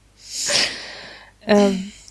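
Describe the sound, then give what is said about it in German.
A dog coughs twice: first a breathy, hissing hack, then after a short gap a harsher, honking burst with a rough tonal edge. “Jetzt musste der Hund auch noch husten.”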